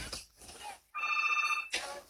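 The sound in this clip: A telephone rings for an incoming call on a radio phone-in line: one burst of steady, high, warbling electronic ring under a second long, between stretches of quieter talk.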